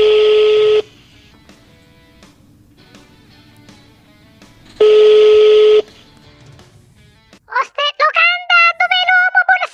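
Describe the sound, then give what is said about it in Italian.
A telephone ringback tone sounds as a call is placed to a restaurant to book a Valentine's Day table. Two long, steady beeps are separated by a pause, then a voice answers at the end. “Adesso lo chiamo, vediamo.”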